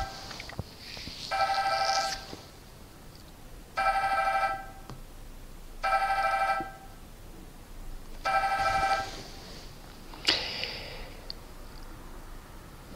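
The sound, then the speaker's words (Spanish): A mobile phone ringing during a lecture, its bright electronic ringtone sounding in five short bursts separated by quiet pauses, with no talk. “Perdonad que suene el teléfono, pero cuando he empezado esta charla me he dado cuenta de que no había apagado el móvil. Así que con paciencia vamos a esperar a que acabe de sonar.”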